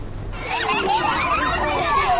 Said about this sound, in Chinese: 在哈尔滨市南岗第二幼儿园，一堂户外探索课正在进行，孩子们戏水戏耍，搭建积木，自由探索整片空间。